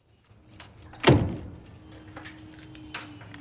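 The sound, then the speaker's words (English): A single sharp clack of a flat's door being locked or keys being put down, loud and brief with a short fading rattle, followed by a faint steady hum. “She locks the door and throws down mail. She puts her keys down”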